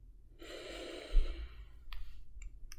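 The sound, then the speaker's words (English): A long, deep inhaled breath taken during a guided breathing exercise, a steady airy hiss lasting over a second, followed by a few faint clicks. “And let's take three deep breaths together. So let's inhale.”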